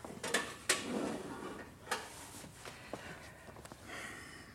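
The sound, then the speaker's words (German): Kitchen clatter as a leg of lamb goes into the oven: a few sharp metallic clanks, then softer rattles and scrapes of a pan and oven door, fairly faint. “Die Keule, die kommt in die Bratröhre. Ach, halt, noch etwas Salz.”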